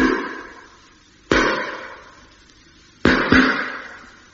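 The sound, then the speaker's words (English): Tapping on the hull of a ship, moving around it: a few sharp, ringing knocks, each fading in a long tail. The last two come in quick succession. “Now they're on the tap again, going all the way round the ship.”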